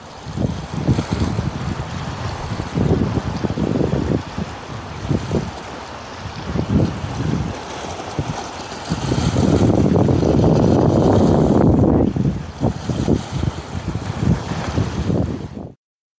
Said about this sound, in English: This is the sound of water lapping at the pilings of Astoria's waterfront, right where the old pilings are on which the old city used to sit.